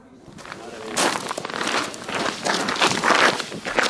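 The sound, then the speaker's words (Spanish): Footsteps walk through an underground mine gallery in the Sierra del Aguilón, many steady crunching steps that grow slightly louder and continue in an even rhythm. “Estamos caminando por una galería subterránea que hicieron los mineros que trabajaron durante años en el subsuelo de la Sierra del Aguilón.”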